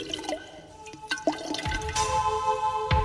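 Water running from a tap while a carrot is rinsed under it: a few faint drips and knocks, then a soft, steady splashing stream.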